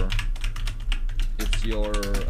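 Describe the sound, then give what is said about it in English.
Rapid keystrokes on a computer keyboard, a dense run of sharp clicks at an even pace, with a voice briefly joining near the end. “So let me type that in.”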